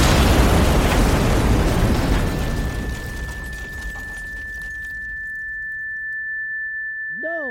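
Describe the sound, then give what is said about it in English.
A grenade explodes in a loud blast that rolls into a long, fading rumble. A high steady ringing tone lingers afterward, and a short voice cuts in at the very end. “Is that a grenade? Mm-hmm. Everyone, back! Behind something!”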